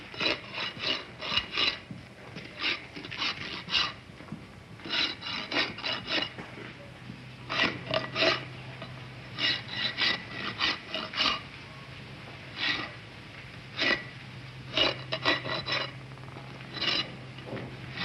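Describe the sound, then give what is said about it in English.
A metal file rasps slowly across a workpiece in short, scratchy strokes. The strokes come in small groups, with brief pauses between them, across the whole stretch, at a moderate, even loudness. “Wait a minute, he's not filing that fast. I'll do it slower. He was filing slower and give little pauses every now and then.”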